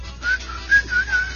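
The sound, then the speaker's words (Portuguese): A person whistles to imitate a butterfly, giving four short, high whistles in quick succession over a low steady hum. “Exatamente. Esse é o barulho da borboleta.”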